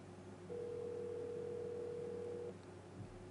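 A single steady ringback tone of about two seconds plays during an outgoing phone call, a plain mid-pitched electronic beep with no talking over it.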